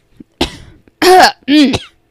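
Coughing and throat clearing from someone with something stuck in the throat: a rough, breathy cough, then two louder voiced, grunting clears, all close together and alone.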